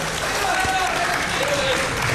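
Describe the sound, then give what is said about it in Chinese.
Warm, dense audience applause at a comic stage show, a steady patter of clapping with a voice talking over it. “您瞧这掌声这么热烈”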